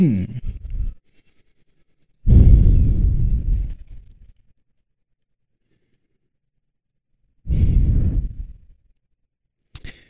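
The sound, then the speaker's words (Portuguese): Breathing blows straight into a microphone in rough, rumbling gusts: three long breaths a few seconds apart and a brief one at the very end, separated by near silence, with no talking. “Às vezes vocês vão ouvir só a minha respiração aqui, tá bom?”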